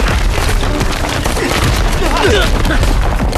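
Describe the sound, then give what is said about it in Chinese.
A dense volley of gunfire erupts during a firefight, with rapid overlapping blasts and booms continuing throughout and voices mixed into the din. “打！ 开火！”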